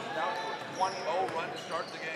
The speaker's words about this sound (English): Coming down with a dribble